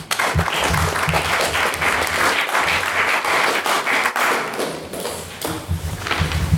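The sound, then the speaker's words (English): Audience applause for a debate speaker's maiden speech, a dense, continuous wash of clapping that stays loud and even from start to finish. “okay for his uh, fantastic maiden speech. Give him another round of applause.”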